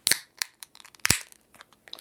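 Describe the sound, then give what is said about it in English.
A can of Airmail is popped open with sharp cracking snaps, two louder ones with smaller crinkly crackles scattered between and after them. “we are going to pop open this Airmail. ASMR.”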